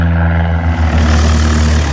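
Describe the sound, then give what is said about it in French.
Steady droning engine of a small propeller aircraft at departure for a half-hour flight, a constant low hum with even harmonics that holds loud and unbroken for two seconds, with no voices. “Départ pour une demi-heure de vol entre le Gard et la Provence.”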